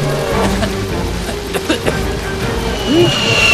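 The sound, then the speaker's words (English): Massive raindrops pelt down in a heavy downpour: a dense, steady wash of rain noise with a few sharper impacts standing out near the middle and a swell of louder noise toward the end. “Can't find rain. Can't find... Ah! He's hit by massive droplets.”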